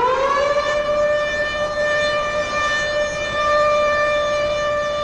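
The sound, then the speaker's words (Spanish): A loud morning siren sounding across a town near railway sheds. It rises briefly at the start, then holds a steady, sustained wail throughout, with no voices. “Todas las mañanas me despierta la sirena de la Ítalo. Ahí empieza mi día. El sonido atraviesa la villa envuelta en las sombras, rebota en los galpones del ferrocarril y por fin se pierde en la ciudad.”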